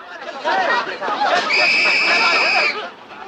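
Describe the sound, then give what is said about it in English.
Agitated crowd babble as people gather around a man who has just been shot, with many voices overlapping and a steady high whistle-like tone cutting through the middle. “He fixes the crosshairs on Harry and fires. Harry collapses on the floor. A crowd surrounds Harry.”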